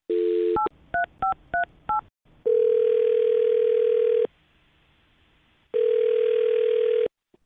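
A telephone call is placed and rings out: a quick run of touch-tone dialing beeps, then two long, steady ringback tones separated by a pause of near silence.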